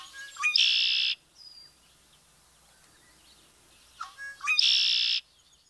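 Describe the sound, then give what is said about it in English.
A glossy blackbird with red shoulders outlined in yellow sings its gurgling song twice. Each phrase starts with a few short rising notes and swells into a loud buzzy trill, separated by a quiet pause. “The glossy blackbird puffs up its feathers, emphasizing a rich red color on the shoulders, festively outlined in yellow. This, along with its gurgling, memorable song, a true sound of summer.”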